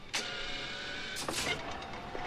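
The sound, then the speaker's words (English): Airplane overhead luggage compartment closing in the cabin: a sharp clunk, then a second latch-like clunk about a second later with brief rattling, over a steady mechanical hum. “Those are all normal noises. Luggage compartment closing.”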